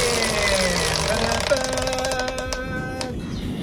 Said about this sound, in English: We're going to spin the wheel to choose the category. Do you want a big spin or a little spin? Big spin.